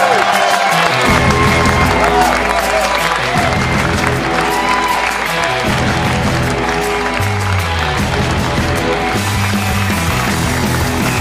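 A live studio audience breaks into loud, sustained applause and cheering to welcome a former Gaelic football player onto the stage. The clapping stays dense and even throughout.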